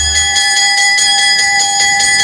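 A school bell ringing steadily, a loud, bright electric rattle of rapid repeated strikes that continues unbroken throughout.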